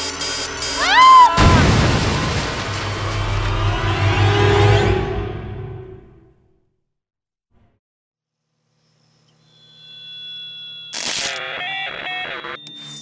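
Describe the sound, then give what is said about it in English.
A robot explodes: a short electronic sweep gives way to a loud burst, and its crackling noise trails off over several seconds into silence. Tonal electronic sounds follow later. “Oh no, minor setback, right? Hermione exploded.”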